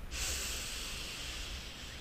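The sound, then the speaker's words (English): A deep breath drawn in during a guided breathing exercise: one long, airy inhale lasting about two seconds, a steady soft hiss with no talk. “If you want to join me in it and take a deep breath in”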